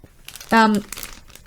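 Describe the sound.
Plastic packaging crinkles in a single quick rustle of about a third of a second, fairly loud, with faint scratchy handling noise before and after.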